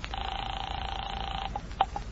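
A telephone call being placed: a steady dial tone for over a second, then a few short, faint beeps as the number is dialed.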